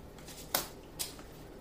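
A tarot card pulled from the deck: two faint, brief papery snaps about half a second apart, with quiet background between them.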